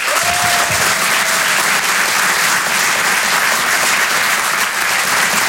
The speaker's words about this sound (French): Vous pouvez l'applaudir très fort, Miri sur Rire et Chanson.